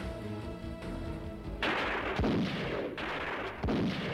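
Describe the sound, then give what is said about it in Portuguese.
Gunshots ring out as sharp, loud cracks that cut through a steady tonal background. Each crack leaves a dense, noisy tail. “Ai, deu dois tiros.”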